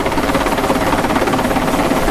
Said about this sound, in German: Der Hubschrauber, der jetzt über uns fliegt, der setzt jetzt das erste Team ab.